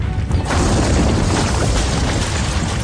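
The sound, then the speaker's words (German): Rumbling rockslide from a mountain summit, a loud, dense roar of crashing rock with heavy low rumble that swells after a brief lead-in and stays sustained to the end. “Das Rumpeln kam vom Gipfel des Berges. Das ist eine Geröllawine!”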